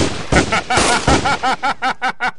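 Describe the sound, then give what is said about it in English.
Gunfire as men shoot their guns: a rapid string of loud, sharp shots, dense at first and then settling into an even, regular rhythm of separate blasts. “What are you boys shooting at?”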